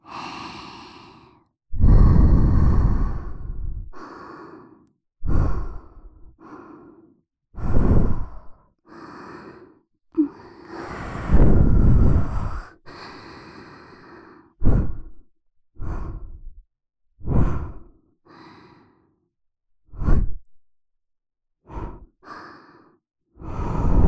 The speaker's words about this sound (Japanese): では、もうちょっとだけ、ふうふうしていきまーす。